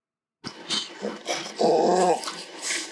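A female dog growls and whines insistently for attention, uneven grumbling bursts with a longer, louder throaty growl in the middle and higher whimpering edges, no barking.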